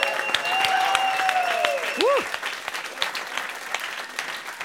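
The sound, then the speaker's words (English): Studio audience applause at a live music radio session: steady, dense clapping that lasts throughout, with a cheering voice rising over it. “And if you could, give it up for yourself, studio audience. What a great audience we've had tonight.”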